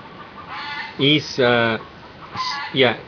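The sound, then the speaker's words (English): A prize rooster crows and calls in a few loud, harmonic bursts, separated by brief pauses, with no other sounds clearly heard. “It's getting rid of one of our prize roosters. I think he's saying it's time.”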